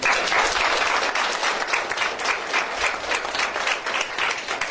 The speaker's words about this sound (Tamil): அப்படி கைதட்டல் கொடுங்க